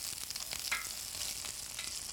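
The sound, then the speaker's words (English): Asparagus sizzling in a pan gives off a continuous, faint crackling hiss with small pops scattered throughout, and no voices. “The asparagus sizzles in a pan and sauce is cooking.”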